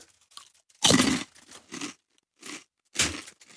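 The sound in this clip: Crunching and chewing as someone eats a sour, spicy British food: a loud first bite, several softer crunches, then another strong crunch near the end.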